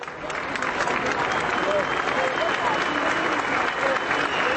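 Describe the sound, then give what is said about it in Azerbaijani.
Crowd applause from tens of thousands of people as Hrant Dink's funeral procession passes the newspaper office where he worked, a vast, sustained roar of clapping hands with faint voices mixed in, holding steady and loud throughout. “Dink'in cənazəsi işlədiyi qəzetin redaksiyasının yanından keçiriləndə 10 minlərlə adam əl çalıb.”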